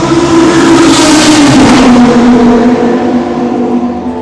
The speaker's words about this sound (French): So I'm going to try and record the car coming in to the pits because it sounds absolutely fantastic.